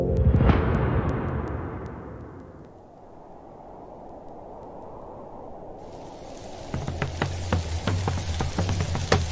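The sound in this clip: A crackling fire in Patagonia, the kind people gather around: a loud whooshing burst opens, fading into a steady hiss, then sharp, frequent pops and crackles break out over the final few seconds, with no voices.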